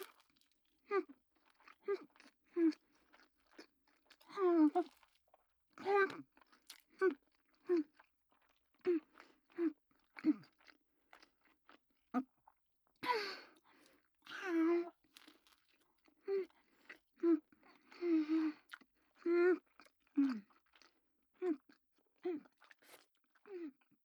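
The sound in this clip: Someone chews hand-rolled salmon sushi in many quiet, moist, crunchy bites that keep a steady rhythm, close and soft.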